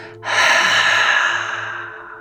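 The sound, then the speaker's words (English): A long, steady exhale during a guided breathwork exercise: one loud, breathy rush of air lasting about two seconds, beginning abruptly and slowly tapering off toward the end. “Exhaling in 3, 2, 1.”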